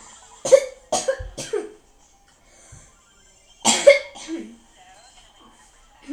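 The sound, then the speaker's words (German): Coughing from someone who has just choked on something swallowed: a few harsh, spluttering coughs in a quick burst, then a short pause and a second loud cluster of coughs. “Entschuldigung, habe ich jetzt gerade verschluckt.”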